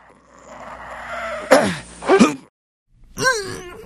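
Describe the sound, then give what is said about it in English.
A voice imitates a fighter pilot's anti-G straining "hook" grunt: a held, strained groan breaks into forceful bursts, and after a brief silence comes another short, voiced burst. “And they're grunting and groaning and hook! Making all these hook noises.”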